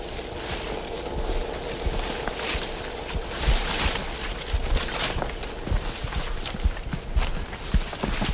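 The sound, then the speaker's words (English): Footsteps tramp through a wet slough, with many irregular sloshing, squelching steps over a continuous watery churn, fairly even in loudness throughout. “So that's pretty characteristic noise is walking through the slough.”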